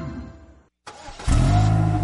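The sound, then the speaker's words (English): A car engine sputters briefly, cuts to a moment of silence, then catches and runs with a loud, steady low drone. “Well, this is great. The car is finally running right”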